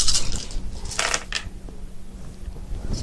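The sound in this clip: Dice rolled during a tabletop role-playing game make a few brief, light clattering rattles over a low steady hum.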